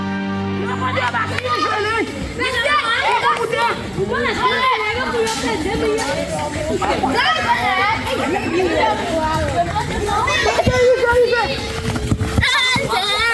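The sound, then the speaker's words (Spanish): Boys and girls playing football in Haiti: lively, overlapping children's shouts, calls and chatter continue throughout without a break. “Este es el sonido más puro del fútbol. Son niños y niñas jugando en Haití, el país más pobre de América que vuelve a un mundial después de 52 años.”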